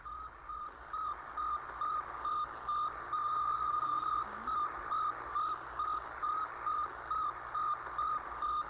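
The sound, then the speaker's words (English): Radio signal from the Soviet Sputnik satellite: a steady, evenly spaced series of many high-pitched electronic beeps pulsing over a constant hiss of static. “The radio signal transmitted by the Soviet Sputnik. Listen now for the sound which forevermore separates the old from the new.”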